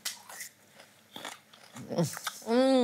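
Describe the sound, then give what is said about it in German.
Raw rhubarb dipped in sugar being bitten, giving a crisp, watery crunch amid soft talking, followed by an appreciative hum. “Kennst du rohen Rhabarber in Zucker tunken? Haben wir irgendwo Zucker?”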